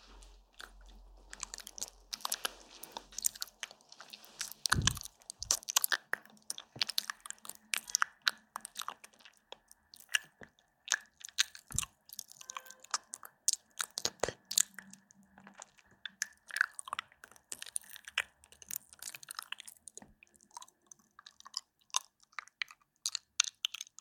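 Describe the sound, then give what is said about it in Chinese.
Licking and biting a cold treat, with many crunchy bites and wet chewing sounds in an irregular, close run, the crunches sharp and dense against quiet gaps. “我2分钟怎么可能舔完啊？好吧，我试试啊。啊，好凉啊！”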